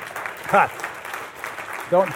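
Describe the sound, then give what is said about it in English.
An audience claps at a speech: a steady wash of applause with brief bursts of voices rising over it. “Don't clap for me. Clap for my wife.”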